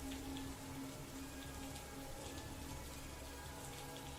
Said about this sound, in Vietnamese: Cơn mưa rào đến nhanh rồi cũng tạnh nhanh.